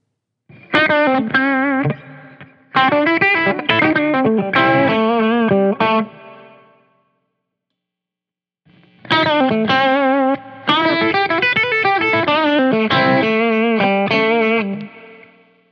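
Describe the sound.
An electric guitar with Porter gold foil pickups plays two loud phrases of picked and strummed chords, with a clear pause between them, and the final notes ring out at the end.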